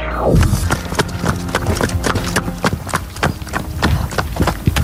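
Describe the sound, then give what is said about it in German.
A pony's hooves strike the ground in a fast, regular clip-clop, with many sharp hoofbeats in a steady rhythm as it moves at a brisk gait. “Hörst du, in welcher Gangart unser Ronny Pony gerade läuft?”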